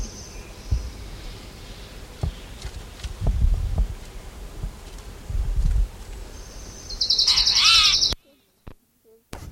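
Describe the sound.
A brief, rapid song of an orange-crowned warbler comes in near the end, after several dull low thumps, then cuts off abruptly.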